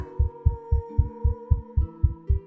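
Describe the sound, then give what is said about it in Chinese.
A racing heartbeat: a rapid, steady run of about ten deep, soft thumps at an even pace, over a sustained low hum. “怎么开始对我心跳加速了？”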